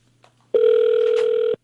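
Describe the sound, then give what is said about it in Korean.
An outgoing call's ringing tone: a single steady electronic tone lasting about a second, loud and alone, with only faint noise before it. “0636번님께 네. 전화를 드립니다.”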